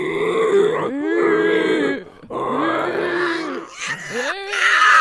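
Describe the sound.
A man's voice imitates a pig grunting, giving a few long, throaty, nasal grunts and groans with wavering pitch, separated by brief pauses.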